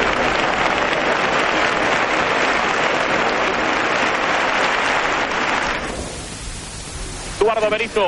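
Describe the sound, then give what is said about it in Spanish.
A bullring crowd roars and applauds as a bullfighter enters the arena in a 1995 Spanish-language drama. The dense, loud cheering holds steady, then drops away sharply near the end, and a brief tonal sound follows. “El torero sale al ruedo y el público le vitorea.”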